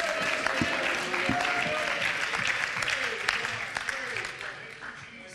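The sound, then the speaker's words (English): A church audience claps hands during worship, with sharp, scattered claps sounding under a voice and fairly soft overall. “Hey, church, as we clap our hands, could we worship as if to say, everybody's welcome at the Father's house.”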